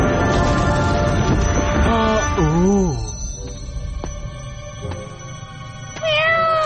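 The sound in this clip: A cat meows in a long, wavering, rising-and-falling call, then gives a shorter meow near the end, both over a steady tonal background.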